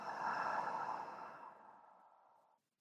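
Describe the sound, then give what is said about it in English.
A long, slow breath out after a deep belly inhale, a soft airy rush that fades steadily and ends after about two and a half seconds. “One more inhale into your belly, and let fully go.”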